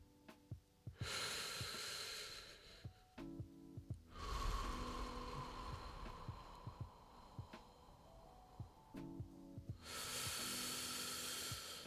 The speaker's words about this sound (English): Now take three deep breaths with me.